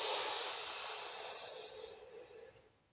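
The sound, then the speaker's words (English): A slow breath in during an anxiety-calming breathing exercise: a soft, airy hiss drawn out for about three seconds that gradually fades, with no talking. “Breathe in very slowly. Do it for 5 seconds.”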